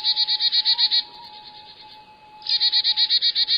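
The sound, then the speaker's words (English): Carolina chickadee call: a rapid run of high, buzzy repeated notes, then a quieter stretch, then a second equally quick burst of the same clear notes. “It's the Carolina chickadee.”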